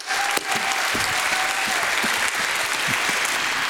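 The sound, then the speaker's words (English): A church audience applauds to welcome their pastor to the front, a loud, dense and steady wash of many hands clapping that holds at full strength throughout. “Would you put your hands together and make welcome my dear friend and pastor, James Wright.”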